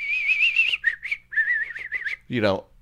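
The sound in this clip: A voice whistles an imitation of a bird's repetitive call. A steady, high warbling tone is broken into several short repeated bursts, followed by a brief voiced sound that falls in pitch.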